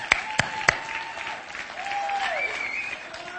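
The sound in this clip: Church audience applauding to welcome its family pastor at a morning service. A few sharp claps stand out at the start, then faint, steady clapping continues.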